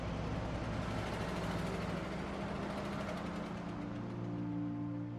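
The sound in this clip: A truck engine running as the truck drives away, giving a steady, low droning rumble with a humming tone throughout and no other sounds.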